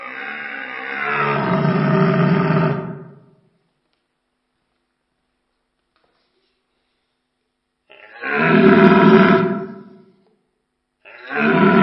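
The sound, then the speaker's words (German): Deep, guttural roaring of red deer stags, two of equal strength, walking side by side in a parallel march. Three long, harmonic bellows are separated by stretches of silence, and the last one is cut off. “Parallelmarsch von zwei Hirschen gleicher Stärke.”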